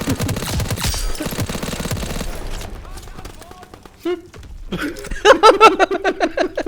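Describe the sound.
Suppressed automatic gunfire from a weapon fitted with a silencer in a shooter video game, rapid repeated bursts of muffled shots, loudest and most tightly spaced toward the end after mixed game sounds earlier.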